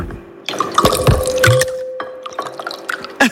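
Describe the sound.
A small amount of water poured into a glass: uneven splashing and dripping bursts with a faint ringing tone from the glass, ending in a couple of sharp drips.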